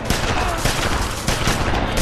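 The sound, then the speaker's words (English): Gunfire in an action film shootout: a dense, continuous barrage of loud, sharp shots with no break. “And everyone just starts shooting everyone else.”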